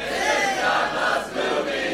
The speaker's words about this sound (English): Oh, that was a very pleasant version of that. A lot of singers in the audience.